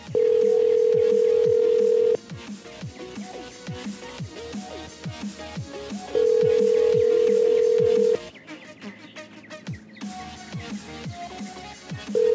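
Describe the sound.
A telephone call rings out unanswered, its steady ring tone sounding in two long bursts separated by a pause, with a third beginning at the end, over busy background sound.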